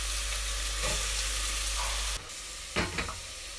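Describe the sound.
Onion, leek and carrot sauté in a pan over medium-low heat, giving a steady, loud, even sizzle. The hiss drops slightly partway through, and a few light stirring sounds follow.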